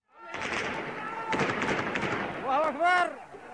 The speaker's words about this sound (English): That is the sound of security forces in Yemen opening fire on a large protest at a university in the capital.